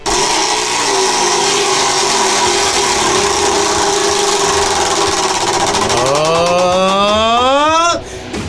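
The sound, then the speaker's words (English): A wheel of punishment spinning: a loud, dense buzzing whir of rapid ticks that holds steady, then turns into distinct, slowing clicks with a rising whine before cutting off abruptly. “Put this microphone near the wheel so we can hear what's going on.”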